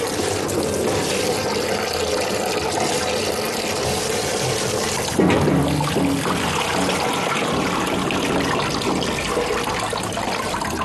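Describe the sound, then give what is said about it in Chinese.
Running tap water pours over pig tripe as it is rinsed fold by fold, a continuous loud rushing flow whose texture shifts about halfway through. “第二遍洗的时候，这里一页页翻着洗，一定要用活水，活水能冲得干净。”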